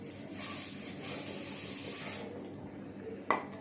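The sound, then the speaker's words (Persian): Taft hair spray hissing from an aerosol can in one steady burst of about two seconds, then cutting off, followed by quiet and a single brief sharp click. “حالا اسپری تافت”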